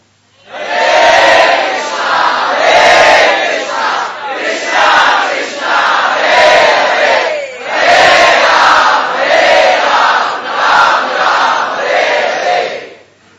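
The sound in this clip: A crowd chanting the name of the Lord, loud massed voices in unison rising in several swelling phrases separated by brief pauses.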